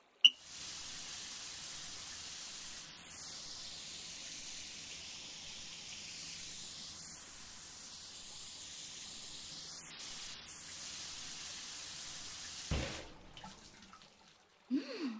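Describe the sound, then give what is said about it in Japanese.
Running water rinsing washed hair, a soft, steady shower-like hiss that continues for about twelve seconds before shifting abruptly near the end. “洗うのはこのくらいでいいかしら。それじゃあ流していくわね。”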